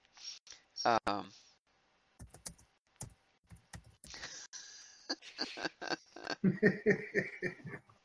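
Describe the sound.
Computer keyboard typing: a short burst of a few sharp key clicks amid voices, with people talking before and after.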